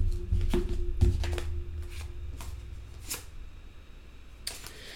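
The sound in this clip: Tarot cards are shuffled and drawn, a run of sharp papery snaps and riffles that is busiest in the first second, then sparser flicks and taps at a fairly faint level, with no talk.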